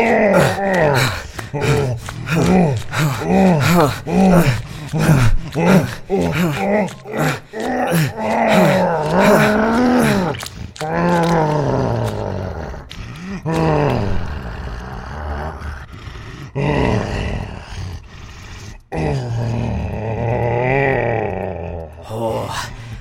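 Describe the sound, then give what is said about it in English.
A beast in a video game featuring a chimera roars and groans: many rapid, rhythmic guttural vocal bursts at first, then longer, drawn-out moaning calls, loud throughout with no other sound. “That's the sound of a pleased beast.”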